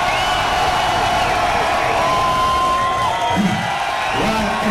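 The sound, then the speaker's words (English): A crowd cheering and making noise at the DJ Magazine Top 100 DJ Awards 2001, a loud, dense and unbroken roar that holds steady throughout. “ladies and gentlemen, boys, girls, lesbians and homosexuals, make some goddamn noise.”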